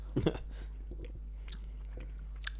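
Someone chews an orange, speckled, vomit-flavoured jelly bean, making faint, soft, moist chewing and a few small crunching bites, with no talking.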